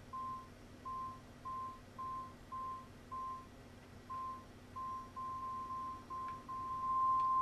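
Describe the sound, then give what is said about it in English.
Beeping in a video game that signals a hidden target is near: a faint, steady mid-pitched electronic tone pulsing in many short, regular bursts over a quiet background. “As you can hear the there's the beep in the background as you get closer to it.”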